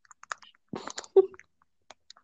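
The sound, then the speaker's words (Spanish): Faint chewing and crinkling of a snack bar and its wrapper while eating, heard as a few short, soft crunchy bursts separated by brief pauses. “¿Estás comiendo algo? Una barrita. Es que se escucha la envoltura ahí.”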